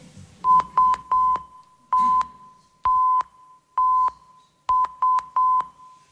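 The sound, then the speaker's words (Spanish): An SOS distress call in Morse code: clear, steady, mid-pitched beeps, three short, then three long, then three short, each sounding alone with brief gaps between them. “Muy popular se ha hecho desde luego la llamada de SOS.”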